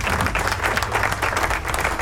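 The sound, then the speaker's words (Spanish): Steady applause, dense continuous clapping that stays fairly loud and even from start to finish with no clear voices. “Yo vengo a hacer el programa de metal porque es que esta es la comunión que tenemos ustedes y nosotros. Aplausos.”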